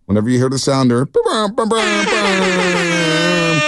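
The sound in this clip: Radio contest air horn sounder: loud, brassy blasts, a couple of short honks broken by brief gaps, then one long sustained blare that holds steady to the end.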